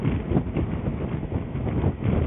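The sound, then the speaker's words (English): Wind roars past while riding a motorcycle at about 100 km/h, a loud, steady, dull rush of noise with constant buffeting and no voices. “at this speed, which I'm doing about 100 kilometers an hour right now, the wind is quite tremendous.”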